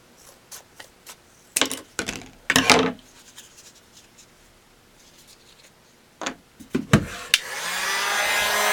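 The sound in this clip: Heat gun blowing hot air onto a cut piece of material being shaped; a few short rubbing and handling noises come first, then a steady hiss of airflow starts near the end and continues.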